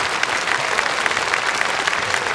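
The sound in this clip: Dense applause from an audience welcoming a guest speaker at a Memorial Day church gathering, many hands clapping at a steady level throughout with no break.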